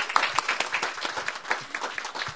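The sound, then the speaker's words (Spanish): Applause from a live audience at a conference for Latino families with children with special needs: dense, brisk clapping with some sharp individual claps, fairly loud and steady throughout. “Un aplauso para los que se llegaron aquí dedicando,”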